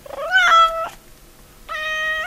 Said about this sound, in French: On est à côté de 2 chats qui sont dans des paniers se trouvant sur un arbre à chats.